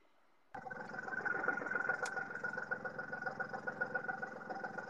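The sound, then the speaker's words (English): A Gator utility vehicle's engine starts up abruptly after a short silence and then chugs steadily while driving, with a throbbing, pulsing rumble. “I am coming at work, driving my lovely Gator around. Yeah, we can hear a lot of background for that one.”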